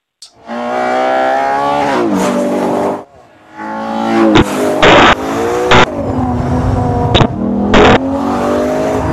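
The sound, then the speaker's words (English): A Ferrari Purosangue V12 engine revs loudly with no one talking. Its pitch climbs in a long sweep, drops away, then surges again through several sharp revs. “we thought we should just give people a bit of a taste of like that like glorious sound of a V12.”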